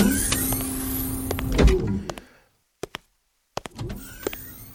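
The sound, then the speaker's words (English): A motorized spacecraft portal door opens with a whirring mechanical hum and a dull thunk. The sound then cuts to near silence broken by a few sharp clicks before the humming drive returns. “Stand by for portal opening. Standing by. Portal is open.”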